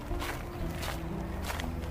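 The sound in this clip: Footsteps of people walking along, a steady, even series of soft treads repeating at a regular pace with no talking.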